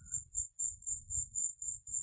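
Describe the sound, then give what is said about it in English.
Crickets chirp in a faint, high-pitched trill made of evenly spaced pulses that repeat steadily, with soft low thumps underneath. “Many crickets. There's a cicada or a locust. In this tree that goes off every so often.”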